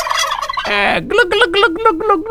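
Loud gobbling from a flock of turkeys: rapid, warbling calls follow one another almost without pause across the whole clip, some bursts harsher and some more tonal.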